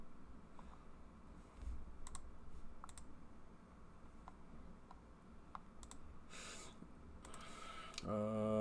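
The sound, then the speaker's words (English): Faint mouse clicks on a computer while browsing through a shopping website to its video game section, a few sparse, sharp ticks spaced irregularly over a quiet hum. “To the video game, I gotta click through”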